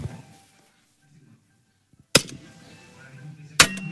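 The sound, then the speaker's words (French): A sword or falchion strikes a shield and armour with two loud, sharp metallic clangs, the second following about a second and a half after the first, over quiet background noise. “Encore donc là, il me tape avec une épée, avec un fauchon sur le bouclier et sur l'armure.”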